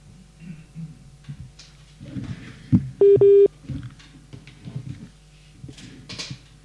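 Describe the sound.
Telephone keypad tones during an incoming call: two short, steady, high beeps back to back, set among muffled voices talking on the line.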